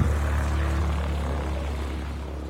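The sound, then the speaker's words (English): A small propeller airplane lands in blowing snow in Canada on a first solo landing, its steady engine drone easing slightly in loudness toward the end. “Okay, there he is, touching down. Wow. What a beautiful landing.”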